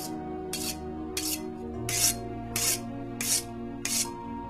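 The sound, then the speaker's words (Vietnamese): Rasping strokes of a knife being sharpened at night, seven steady scraping swipes repeating at an even rhythm over a low, sustained humming background. “Tiếng mài dao cứ soàn soạt vang lên trong đêm, nghe đến rùng mình.”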